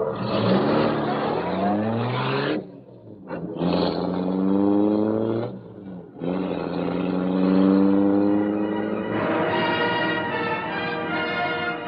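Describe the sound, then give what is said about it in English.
The engine of the Black Beauty, a great gleaming car, roars to life and speeds off into the night. Loud revving rises in pitch, dips twice briefly, then surges again into a sustained, climbing roar. “Britt Reed pressed a button. The great car roared into life. A section of the wall in front raised automatically, then closed as the gleaming Black Beauty sped into the night.”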